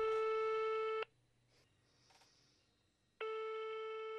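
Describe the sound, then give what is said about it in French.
A telephone signals an incoming call with two long, steady electronic tones, one at the start and one at the end. Between them comes a gap of about two seconds with only faint background noise. “On a un appel de votre sœur de racine, la Constance.”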